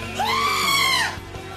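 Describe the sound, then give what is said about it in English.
A goat bleats loudly in a single drawn-out, screaming call lasting about a second. The call is harmonic and strident, and its pitch rises at the start and drops off at the end. “that a goat? It's a goat.”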